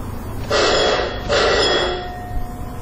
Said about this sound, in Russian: Этот звонок означает, что канатка, доставляющая людей к одной из шахт и обратно, готова к отправлению.